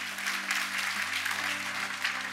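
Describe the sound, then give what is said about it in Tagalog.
Congregation applauding God during a church service: dense, steady clapping that holds at an even level throughout, with no pauses. “So if, if kaya po, pwede po ba nang palakpakan natin si God?”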